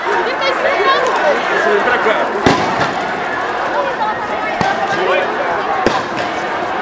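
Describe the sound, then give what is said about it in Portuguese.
A few sharp, booming blasts from tear gas grenades going off during a protest cut through constant loud crowd noise and shouting. “Mais bomba de gás lacrimogêneo.”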